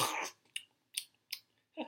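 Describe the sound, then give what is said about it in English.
Someone eats an apple with crisp, crunchy bites: about five short bursts of crunching separated by brief silences, faint and alone. “Nice ASMR of someone eating an apple and giggling for whatever reason at the end”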